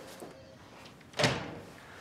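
A door moves as someone comes into the room, a single fairly loud swish and thud near the middle after a faint, quiet stretch, then fading out.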